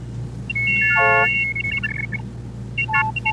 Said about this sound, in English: an optophone, a kind of scanner that would look at text and turn it into a series of tones representing the shapes of the letters